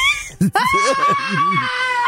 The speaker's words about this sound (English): This guy's trying to do an interview and there's just a half the group of them is still screaming behind him.